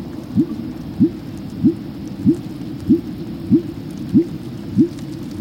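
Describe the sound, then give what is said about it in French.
Fin whale calls: eight short, monotone pulses repeat at a steady, even rhythm, each a brief low sweep rising above a constant low rumble, with no voices. “donc c'est le son du rorqual commun, ce son très ennuyeux et tellement monotone”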